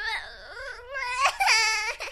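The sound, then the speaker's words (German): A four-year-old child cries in fear, a high wavering wail that dips and climbs, then breaks into shorter sobbing bursts toward the end, with no other voices. “sie bekamen Angst und die 4 Jahre alte Lilly weinte.”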